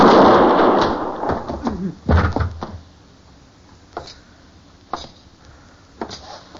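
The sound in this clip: Gunshots in an old-time radio western drama: a loud burst of noise, then several sharp, separate cracks spaced about a second apart, each fading quickly.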